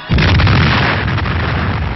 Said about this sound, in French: Ces explosions créent des trains d'ondes souterrains qui sont enregistrés par les sismographes.